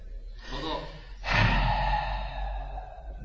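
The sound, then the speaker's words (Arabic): A breath exhaled aloud to demonstrate breathing during a lesson on Quran commentary. A softer breathy rush comes first, then a louder, longer airy exhalation that slowly trails off, with no talking. “حاسس بيه؟ مش ده التنفس؟ صح؟ مش ده التنفس؟”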